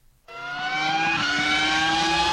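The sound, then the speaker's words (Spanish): A Formula One racing car engine bursts in suddenly and holds a loud, high-pitched whining roar that rises slightly in pitch. No voices are heard. “¿qué le pareció la velocidad a la que pasó ahí Checo Pérez?”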